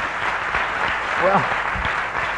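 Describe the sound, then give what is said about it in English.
Audience clapping at a political talk, a steady, dense patter of many hands with a voice briefly audible over it. “Well, you know, thank you for clapping”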